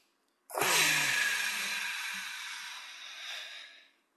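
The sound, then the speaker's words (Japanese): A single long, deep breath drawn and let out as a relaxation pause, one steady airy rush lasting a few seconds, strongest at the start and fading away at the end, with no talking. “じゃあ深呼吸して。”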